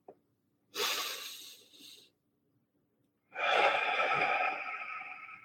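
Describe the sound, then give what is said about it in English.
Deep breathing during a slow guided pause: a long, airy inhale followed after a short gap by a longer, fuller exhale that fades out gradually. No talk. “One more deep breath.”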